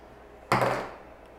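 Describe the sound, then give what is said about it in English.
An eight-sided die is rolled in one short clattering burst that starts suddenly and fades over about half a second, with no talk. “Now, roll your d8.”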